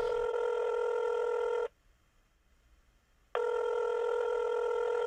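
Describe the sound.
An unanswered telephone rings twice, each ring a steady, bright electronic tone lasting under two seconds, separated by a short silent gap.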